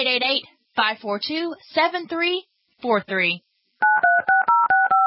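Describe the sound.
Telephone keypad dialing tones follow a stretch of talking, a quick run of short, even electronic beeps at changing pitches.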